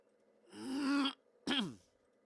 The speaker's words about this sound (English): I hope that mute button worked as I cleared my throat.